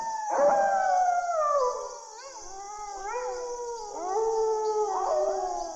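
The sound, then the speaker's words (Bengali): A pack of five or six jackals howls together in overlapping, wavering cries that slide downward in pitch, new voices rising in and layering over the others, loud and steady with no talk. “কিন্তু তখনই বুঝলাম অনৈসর্গিক কিছু নয় শেয়াল ডাকছে পাঁচ ছটা শেয়াল একত্র হয়ে কাছেই কোনো জায়গায় সম্মিলিতভাবে”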